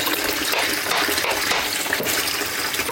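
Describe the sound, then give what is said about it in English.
Washing-up liquid squirts from a nearly empty squeeze bottle in a continuous hissing, sputtering spray. It sounds fairly quiet, with no other sounds. “The sound of me squirting some washing up liquid.”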